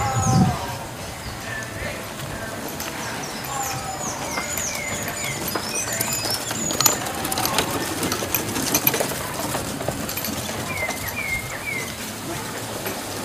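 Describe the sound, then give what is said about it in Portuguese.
Horse-drawn cart passing by, a rapid, steady clatter of hooves and rattling wheels that holds an even loudness throughout, while birds chirp in the background. “Uma carroça com um cavalo, bonitinha. E tem mais uma vindo para cá. Vou tentar capturar o áudio dela de novo. É outra carroça, no caso.”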